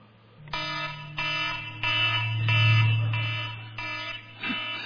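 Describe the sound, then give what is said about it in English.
Alarm of a device used as both a stopwatch and an alarm clock, ringing as a series of harsh, buzzy electronic beeps in an even rhythm over a steady low hum, with no talking. “That is my alarm that I use for both a stopwatch and an alarm clock.”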